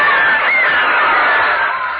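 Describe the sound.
A crowd of women cheers in an old radio advertisement for Franco-American canned foods. The many voices blend into a loud, continuous, muffled roar that holds steady for about two seconds with no pauses.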